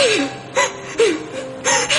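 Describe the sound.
A person crying so hard they can barely breathe: several bursts of sobbing, with breathy gasps and high, falling whimpers that break up the sound unevenly.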